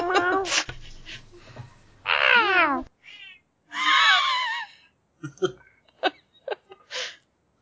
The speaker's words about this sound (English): The cat that's meowing right next to me.